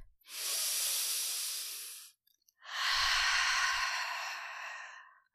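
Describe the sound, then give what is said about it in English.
A deep breath heard as two long, airy, hissing breath sounds of about two seconds each, separated by a short pause, loud and clear with no talk over them. “Shall we start by taking a breath, like a deep breath?”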